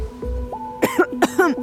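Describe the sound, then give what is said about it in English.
Several people cough in a polluted northern area: four harsh coughs in two quick pairs over soft, steady background tones. “Air pollution here in the north is getting worse. People coughing is the new bird singing.”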